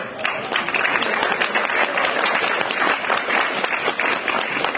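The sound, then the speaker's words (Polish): Applause at a Polish community event as a local arts instructor is introduced: a sustained, dense crackle of many hands clapping, fairly loud and steady from start to finish. “Wielkie brawa.”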